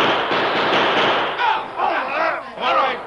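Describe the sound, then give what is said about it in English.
Gunfire sound effect from a radio western shootout at night, outlaws firing into the shadows near a burning fire: a dense, noisy burst fills the first second, then several shorter swelling sounds follow. “Dropping low, the Lone Ranger fired with both hands.”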